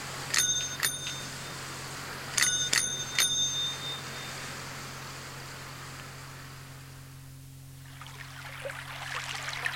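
A bicycle bell rings outdoors: two bright metallic rings come quickly, then three more after a pause, over a faint low hum, before a soft steady hiss fills the rest.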